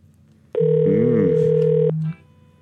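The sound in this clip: A telephone rings with a single long electronic tone, a steady buzzing pitch lasting over a second before cutting off. A voice speaks briefly over the middle of it.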